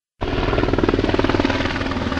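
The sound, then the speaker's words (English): A county air unit helicopter swoops low over a hillside in Simi Valley to drop water during a wildfire preparedness event. After a brief silence the rapid, rhythmic blade chop starts abruptly, loud and steady. “A Ventura County Air Unit helicopter swoops down low over the Ronald Reagan Presidential Library in Simi Valley. As it dips over a hillside, it drops thousands of gallons of water.”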